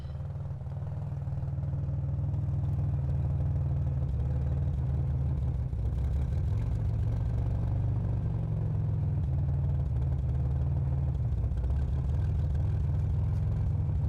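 Steady low engine rumble and vibration heard from inside the trunk of a moving car, continuous and even throughout with a faint clattering texture and no voices.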